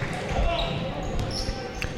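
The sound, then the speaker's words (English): A basketball is dribbled on court in a game's crossover move, a few quick hard bounces beneath a commentator's voice. “Crossover dribble.”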